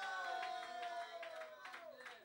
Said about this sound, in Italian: Adesso fatemi un applauso di incoraggiamento un attimo.